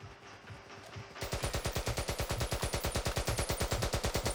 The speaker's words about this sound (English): my weapons were represented in this cheap piece of sound design here, where the bullets turn into sort of cash registers.